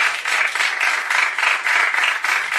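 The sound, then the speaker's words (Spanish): Audience applause for a musician being introduced at a live comedy and music show: dense, continuous clapping, loud and steady throughout with slight swells. “Fuerte el aplauso para Luis Ferreira”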